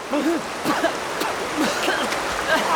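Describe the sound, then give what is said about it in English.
Rushing river rapids: a dense, continuous roar of churning water that stays loud and steady throughout. “Kevin managed to swim to land, but Yossi was swept away by the rapids.”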